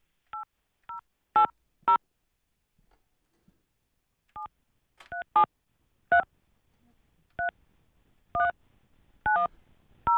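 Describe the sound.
Touch-tone keypad beeps dialing a number on a telephone, a series of short, crisp two-pitch bursts in uneven groups with brief gaps between them, alone with no talking.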